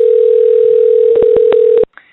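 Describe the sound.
A telephone dial tone sounds as a call is placed: a steady, loud, unbroken mid-pitched hum, then a few sharp clicks cut across it near the end before the tone stops abruptly.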